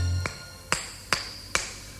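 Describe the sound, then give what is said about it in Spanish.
A hammer drives nails into wood with four sharp, ringing strikes at a steady, unhurried pace. Each short, bright hit stands alone against a quiet background. “Te doy un martillo si me ayudas a clavar.”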